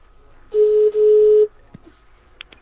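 A telephone number is dialled on a phone line. A steady electronic tone sounds for about a second with one brief break, then a few short, faint blips and clicks follow.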